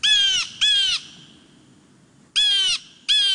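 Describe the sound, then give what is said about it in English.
Harsh, raspy calls of a Steller's jay, four in all, loud and alone, given as two quick pairs separated by a short pause. “Nope. This is the Steller's jay. If you're west of the Rocky Mountains, you're most likely to hear the Steller's jay.”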